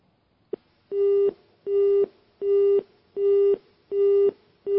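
A telephone busy signal from a failed call-in plays after a single click: six steady, identical mid-pitched beeps in an even on-off rhythm, the last one cut short, with no voices.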